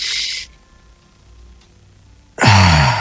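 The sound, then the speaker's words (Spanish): Deep breathing during a guided group breathing exercise using chest, stomach and back: a loud, airy breath is followed by a quiet pause, then another strong, rushing breath. “Vamos a respirar profundo todos, por favor. Y vamos a empezar a respirar usando el pecho, el estómago y la espalda.”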